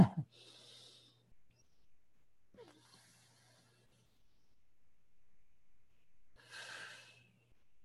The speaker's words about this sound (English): And now you only breathe out with the F sound halfway.